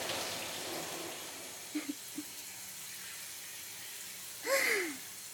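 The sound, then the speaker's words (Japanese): Water running steadily as something is rinsed off, a soft continuous hiss with a few small drips and a brief splashing swell near the end, faint throughout. “ガーって洗い流すのって気持ちいいよね。”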